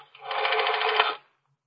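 A rotary telephone dial is turned with a thumb in an office on a first floor, giving a single ratcheting whir that holds steady for about a second and then stops abruptly.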